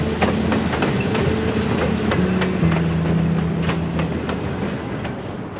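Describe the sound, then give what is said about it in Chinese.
A passenger train pulls away from a station on the rails, with a steady loud rumble, a low sustained hum, and evenly spaced wheel clicks over the rail joints that repeat throughout and ease slightly toward the end. “现在车开了”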